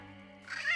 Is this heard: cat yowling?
yes